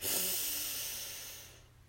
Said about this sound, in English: And our 3rd and final breath together. Breathe in